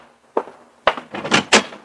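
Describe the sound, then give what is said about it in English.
A newspaper thumps against a door at dawn: a few dull, uneven knocks and scrapes, the first one isolated and the rest bunched closely together. “the jarring thump of the paper grazing my door told me a new dawn was with us”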